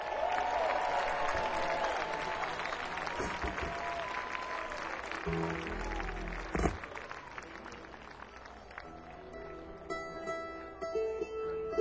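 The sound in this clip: An audience applauds to welcome guitarist Jorma Kaukonen onto a stage. Many hands clap in a sustained wash with some crowd noise, then the clapping thins out toward the end.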